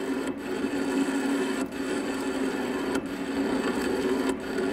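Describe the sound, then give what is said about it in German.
Old lathe machining a historic crane workpiece clamped on the faceplate: a steady grinding, whirring machine noise that runs without a break, with a few brief dips in loudness. “Ich habe hier ein Werkstück von einem alten historischen Kran auf der Planscheibe. Mit anderen Worten, ich bearbeite ein historisches Werkstück auf einer historischen Maschine.”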